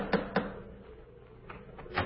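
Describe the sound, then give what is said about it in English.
A knocker raps on a front door covered with icicles on a sleety January night. Two quick, quiet, sharp knocks come first, then a few fainter knocks after a pause. “Well, here we are once again, about to lift the knocker of Dr. Watson's familiar front door.”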